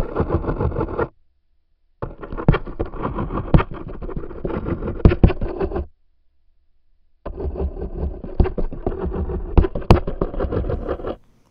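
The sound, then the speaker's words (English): Courtship stridulation of a male wolf spider from the eastern deciduous forest of the United States, heard as three buzzing, scratchy bursts of vibration separated by short silences. The middle and last bursts run several seconds each. “What you've just heard is the courtship vibration of a male Scizicosa ocreata, which is a very common wolf spider in the eastern deciduous forest of the United States. The sound is called stridulation.”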